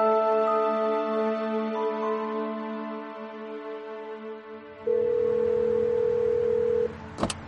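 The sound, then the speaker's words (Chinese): A telephone being dialed from inside a car to call a colleague: a long, layered steady tone, then a single held tone, ending in a few sharp clicks. “坐进车里，孟昭给市局的同事拨了电话。”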